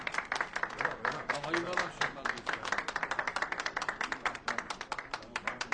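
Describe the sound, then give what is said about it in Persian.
An audience clapping. Many hands make a steady, dense patter of sharp claps that keeps up evenly throughout and grows slightly more rhythmic toward the end. “کف بزنید، کف بزنید.”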